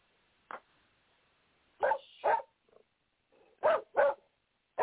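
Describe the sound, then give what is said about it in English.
A dog barks in several short, sharp bursts, mid-pitched yaps separated by uneven pauses, clear and loud with no talk over them. “And that's the dog giving his 2 cents worth.”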